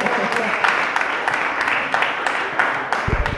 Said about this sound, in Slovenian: one applause for the ladies